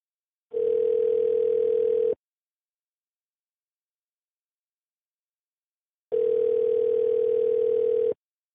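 Telephone dial tone after a call disconnects: two steady, mid-pitched sustained tones, each lasting well over a second, separated by a long stretch of silence.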